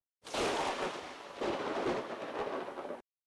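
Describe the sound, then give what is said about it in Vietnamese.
Rumbling thunder: two rolling swells of low, broad rumble, the second starting about halfway through, lasting about three seconds in all. It is fairly faint and heard alone. “Một trận sấm rền vang lên, cắt ngang lời kể của Grim.”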